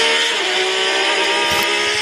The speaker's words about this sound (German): Und am Schluss kommt dann der Porsche 911, das ist so der Klassiker.